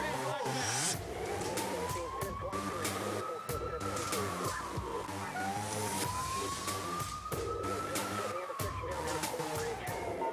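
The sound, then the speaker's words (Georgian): A police car siren wails in two slow sweeps, each rising and then dropping back. It sounds steady and prominent over dense background noise with scattered sharp clicks. “პოლიციის მანქანა 2 წამში გაჩნდა ადგილზე.”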